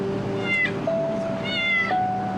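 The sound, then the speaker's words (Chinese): A stray cat meows twice, two high, drawn-out cries with a gap between them, heard over a steady low background tone. “好吧，赶紧回家吧，流浪猫。”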